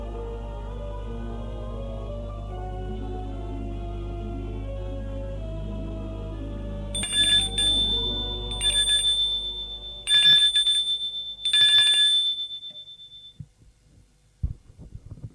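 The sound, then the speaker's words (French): A doorbell rings four times in short, bright metallic bursts with brief gaps between them, following a steady low tonal drone that fades out. “l'on vient de sonner, il va ouvrir.”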